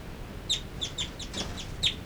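Two birds call inside a cell, giving a series of short, sharp, high chirps spaced irregularly over quiet background noise, some calls slightly louder than others.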